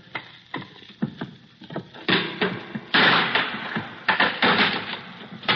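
A crowbar prying open a wooden crate produces a series of knocks, creaks and splintering cracks, irregular at first, then louder, longer bursts of grinding wood through the second half.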